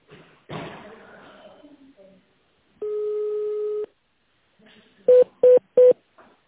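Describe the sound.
Telephone keypad tones from dialing a menu option on a security company's automated phone line: a long steady electronic tone, then a pause, then three short identical beeps in quick, even succession.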